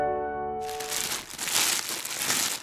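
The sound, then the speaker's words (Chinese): A plastic bag crumpled by hand: a short sustained tone fades into loud, dense crinkling and crackling that swells and eases in a few waves. “这个就是塑胶袋的声音， 你拿起塑胶袋揉一揉就会出现这个声音。”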